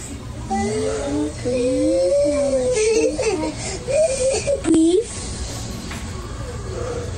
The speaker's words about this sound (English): On Nintendo, and he started chucking a tantrum. So the six-year-old started telling him to just breathe.